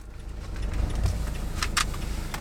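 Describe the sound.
A Mathem grocery delivery car drives around among newly built apartment buildings, with a steady low engine and road rumble and a few light rattles and jangles inside the car.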